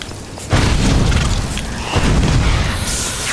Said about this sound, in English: Stay back! I'll burn you! There we go. That initial burst of fire does the most damage. I shouldn't just hold it. I should just burst them.